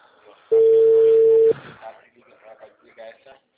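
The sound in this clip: Telephone dial tone heard while placing a call: one steady, loud, low electronic hum lasting about a second, cutting off abruptly, after which people talk.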